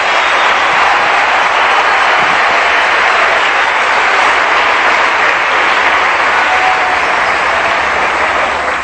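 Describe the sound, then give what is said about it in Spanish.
A church audience applauds loudly and continuously through the whole stretch, a dense, even wash of clapping with no breaks. “¡Aleluya! ¡Un aplauso para el Señor!”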